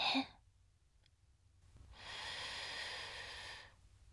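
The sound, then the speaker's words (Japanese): Slow, deliberate breathing: a short puff of air is followed by a pause, then one long, steady breath lasting nearly two seconds. The breaths are soft, airy and faint, with no talk. “ふーっと吐いて、すーっと吸って、”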